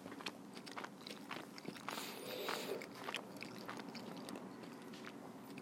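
Chewing of cheese and meat right at the microphone: steady, faint wet mouth sounds with soft crunches and smacks in an irregular rhythm, with no talking.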